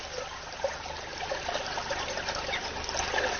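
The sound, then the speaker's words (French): Water flowing in a stream, a steady broad rushing trickle that holds at an even level throughout, with no voices. “T'as vu, c'est bizarre, l'eau, elle ne bouge pas, et là, il y a du courant, là.”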